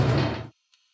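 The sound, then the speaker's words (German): A door being closed: a loud rushing, sliding swoosh lasts about half a second and cuts off abruptly, followed by one brief faint click, with no voices. “Ich würde jetzt gerne, dass wir hier mal gemeinsam drinstehen und wir machen die Tür zu.”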